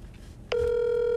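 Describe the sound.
A telephone ringback tone from an unanswered call sounds after a brief quiet stretch, a steady, unbroken electronic buzz that starts midway and holds at an even level to the end.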